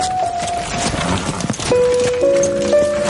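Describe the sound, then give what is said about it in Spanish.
Horse hooves clip-clop steadily as a horse-drawn carriage moves along and pulls up beside a stone bridge over a stream, with a sustained tonal background under the rhythmic hoofbeats. “El carruaje avanza ahora deteniéndose junto a un puente de piedra sobre un riachuelo.”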